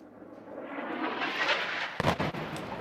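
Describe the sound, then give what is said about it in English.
An airstrike explosion on the front line in the battle for Mosul, heard as a faint, swelling rumbling roar that breaks into a sharp, heavy burst with deep rumble partway through. “That was the sound of an airstrike.”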